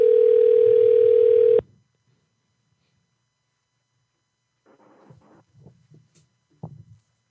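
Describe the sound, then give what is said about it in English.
A phone's ringing tone while calling someone: one loud, steady, even-pitched tone lasting about a second and a half. Silence follows, then a few faint, scattered noises. “All right, we're calling Debbie.”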